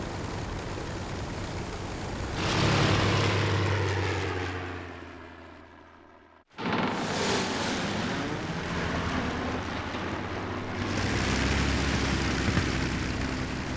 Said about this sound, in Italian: è un aereo turistico in giro sulle isole.